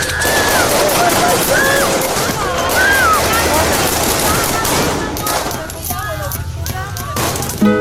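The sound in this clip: Bursts of machine-gun fire rake people inside a tavern: loud, dense and rapid volleys that run almost without pause for about eight seconds, thinning slightly toward the end.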